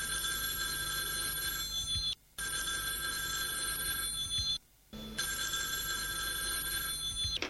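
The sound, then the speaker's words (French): A telephone rings, giving three long bursts of bright, trilling bell tone separated by short pauses. The rings are quiet and steady with nothing else over them. “téléphone a sonné.”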